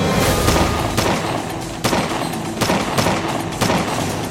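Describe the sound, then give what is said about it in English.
Volleys of gunfire crack through a street shootout: several sharp, loud shots punch out at uneven intervals over a steady dense rumble of firing. “Locals flee from the fierce volleys as both men try for a kill shot.”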